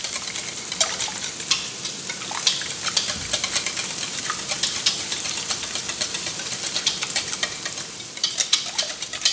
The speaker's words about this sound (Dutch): Zo. Roer ik er even door.